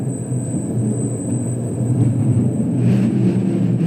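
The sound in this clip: A mine train rolls through a low, egg-shaped tunnel in the Berchtesgaden salt mine, giving a continuous deep rumble with a thin, steady high whine, growing louder in the second half.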